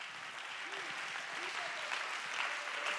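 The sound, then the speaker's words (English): Congregation clapping hands during a church service, a steady, fairly faint wash of applause that runs through the whole clip, with a voice talking over it. “I want you to clap your hands right now.”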